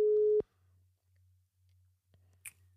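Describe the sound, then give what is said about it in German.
A telephone line tone sounds while a call is being placed: one loud, steady mid-pitched tone lasts under half a second, then a faint low hum pulses on and off a few times. “dann versuchen wir mal bei Arne durchzukommen”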